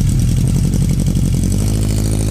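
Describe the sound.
Motorcycle engine running with a loud, steady, clattering mechanical drone that holds an even level throughout, with no clear rev or speech.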